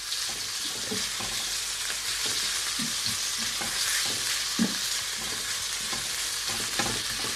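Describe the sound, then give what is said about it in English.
Bite-sized chicken pieces fry in a pan and are stirred around, giving a steady, dense sizzle with soft scraping and clattering from the stirring throughout. “Now I've cut my chicken into bite-sized pieces, so this cooking off part should only take, you know, 3 or 4 minutes or so. So I'm just going to move it around the pan.”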